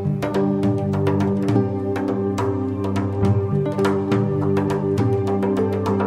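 An intro jingle for a Spanish radio literary news supplement plays as a steady musical theme, with regular percussive hits over sustained tones at an even level.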